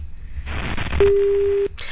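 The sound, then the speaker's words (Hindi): A telephone line tone follows a dropped call: a single steady, mid-pitched tone sounds for well under a second over faint hiss, then cuts off abruptly. “Ravi से हमारा संपर्क टूट गया है।”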